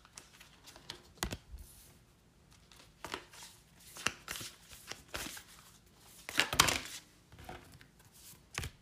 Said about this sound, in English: So, I pulled four cards. with the spirit animal oracle that I mentioned earlier.